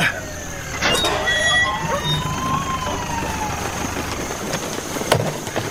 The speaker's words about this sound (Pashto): د امبولانس غږ شو لکه چې ډاکټر صاحب خالد راورسېده.